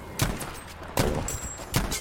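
Three sharp gunshots crack out in a video game at roughly even intervals, each a brief, moderately quiet burst with a short fading tail.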